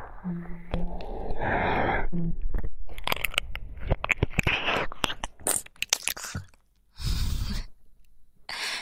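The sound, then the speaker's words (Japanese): Biting sounds: many irregular crunchy, wet bursts mixed with breathy sighs and exhalations, continuous for several seconds, then a brief lull before a final louder breathy crunch. “じゃあ、噛むね。”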